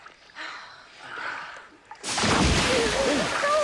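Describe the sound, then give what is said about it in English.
A shark splashing in water: after a stretch of quieter rustling, a sudden loud burst of churning splashes begins midway and continues steadily to the end. “Shark splash.”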